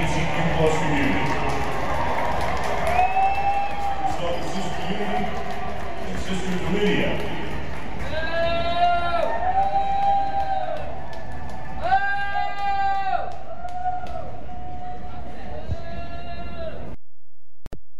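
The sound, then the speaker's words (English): Crowd booing rises from the stands at Dodger Stadium as a group is introduced for an award. Sustained boos swell in waves, with a voice speaking through them, before ending abruptly. “there were two people in the stands and they're both booing”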